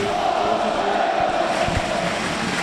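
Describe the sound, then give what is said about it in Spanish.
A football crowd chants a song for their coach while celebrating promotion to Primera División. The massed voices form a dense, steady roar that holds at an even level throughout. “Y vuelven a cantar al entrenador.”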